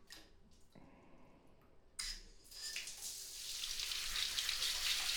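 Shower water rinses a person's hair, starting abruptly as a soft hiss of spray that grows louder and then runs steadily to the end.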